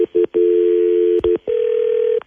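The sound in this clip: Telephone line tones as a call is placed and rings: a few short electronic beeps, a long steady low tone, two more quick beeps, then a slightly higher sustained tone, all loud and clean with no voices.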